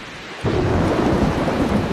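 Thunder breaks in with a deep, loud rumble after a brief quieter moment, then rolls on beneath a dense, steady hiss of heavy rain.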